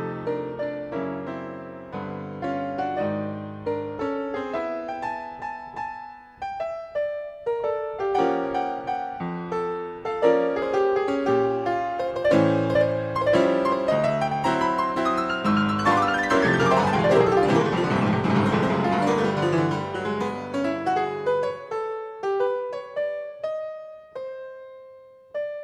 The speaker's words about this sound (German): Jetzt könnte man sagen, ja, das klingt so jazzig angehaucht im Stil der Zeit irgendwie. Stimmt auch, nur das spielt kein Mensch, sondern eine Maschine. Ein sogenanntes Player-Piano.